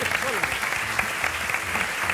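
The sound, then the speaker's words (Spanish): Steady applause from a small group of people clapping for one another, an even, continuous patter with voices faintly audible beneath it. “Un aplauso para él.”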